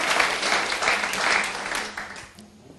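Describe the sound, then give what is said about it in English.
A church audience applauds after worship, dense, steady clapping that holds evenly and then thins and fades toward the end. “Let's give the Lord a big hand, please.”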